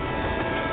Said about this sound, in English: And that is a freight train.